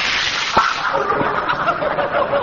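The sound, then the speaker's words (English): A little toy pop gun shot sound effect, a sharp crack followed by a softer second pop, over a steady hiss. “Riley, are you going to let that roughneck Egbert shoot at us? He'll wreck the house. Oh, all right, I'll close the window. What damage can a little pop gun do?”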